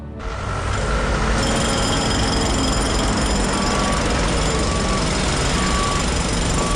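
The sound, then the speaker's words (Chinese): Village road construction work starting in midsummer: loud, continuous jackhammer-like pounding with machinery noise, joined later by steady repeating reversing beeps. “盛夏七月，老牛坡的村路建设终于开工了。”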